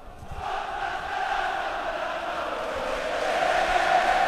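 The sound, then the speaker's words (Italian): Football crowd in a Bergamo stadium at an Atalanta–Inter match: a steady, murmuring roar of massed fans that swells gradually and grows louder toward the end. “Stiamo tacendo per farvi sentire il pubblico di Bergamo, se si sente sì. In sottofondo.”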